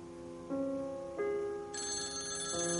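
Telephone ringing unanswered: an electronic ringtone of a few sustained, stepped tones that shift in pitch, with one brighter high note in the middle, steady and alone without voices.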